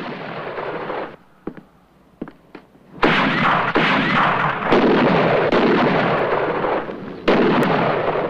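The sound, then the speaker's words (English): Gunshots in a shootout around a hotel with rooftop snipers. Sharp cracks ring out over a few quieter seconds, then more shots burst amid a loud, continuous roar of noise. “Another bullet brings down a roof sniper.”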